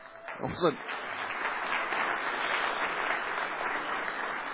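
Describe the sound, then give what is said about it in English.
Applause from a church audience during a service. A brief voice is heard at the start, then many hands clap in a steady, even wash that holds to the end. “I wasn't looking for an applause”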